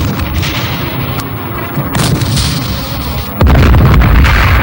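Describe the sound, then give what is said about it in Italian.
A firing squad's volley of gunshots ends in a sudden loud crack that gives way to sustained heavy rumbling. It is preceded by a few fainter thuds over a low droning hum. “compagnia, attenti! Pronti? Caricare! Compagnia, puntare! Fuoco!”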